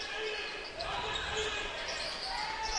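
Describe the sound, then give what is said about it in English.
A basketball being dribbled during a game, its soft bounces faint beneath steady crowd noise, with a voice talking over them. “Rodriguez dribbles in.”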